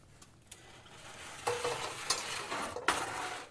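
Fried rice being stir-fried in a wok, a spatula scraping and tossing through the grains over a hiss of sizzling oil, with several sharper scrapes standing out and no voices.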